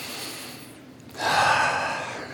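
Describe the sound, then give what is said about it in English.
A deep breath drawn in: a single long, rushing inhalation begins after a quiet moment and carries on for about a second, loud and airy, with no talk over it. “just take a deep breath right now. Just breathe in”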